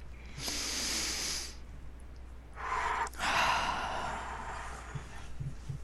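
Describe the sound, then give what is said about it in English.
A deep breath drawn during a guided tapping relaxation exercise, heard as two soft, airy hisses separated by a short gap, quiet and alone without speech. “And take a deep breath.”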